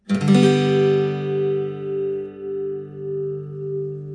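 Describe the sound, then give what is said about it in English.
A G chord fretted with a two-finger shape and strummed once on guitar, ringing clearly and fading slowly over about four seconds. “Now let's look at the G. The G can be one of the simplest chords because you only need 2 fingers to fret it.”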